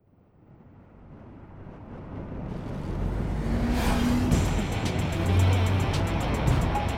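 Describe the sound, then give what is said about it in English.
Roar of a 1975 Corvette Stingray driving fast along the Pacific Coast Highway: a broad rush of engine and road noise that swells over the first few seconds, then holds loud and steady. “God damn, the count drove fast. Glenn Fry couldn't blame him. The Pacific Coast Highway was built for this 75 Corvette Stingray, and the vet flew.”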